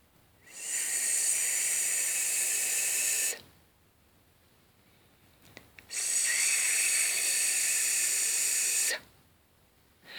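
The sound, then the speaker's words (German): A voice imitates a prolonged hissing S consonant, held steady and bright for about three seconds, then repeated after a short pause. “Wir beginnen mit dem S und ungefähr hört sich dieses so an.”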